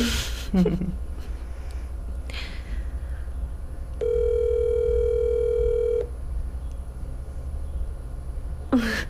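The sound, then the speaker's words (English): A telephone call produces a single steady ringing tone about two seconds long at a constant mid pitch, bracketed by quiet background hiss and a few faint clicks. “Let's try this out. Let's call Jenny.”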